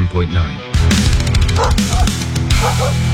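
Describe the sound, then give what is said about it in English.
An aggressive dog barking: many harsh, rapid barks in a loud, dense run, with throaty tonal growls between them. “An aggressive dog can turn a peaceful walk into a dangerous situation in seconds. If a dog starts barking or charging towards you, know what to do.”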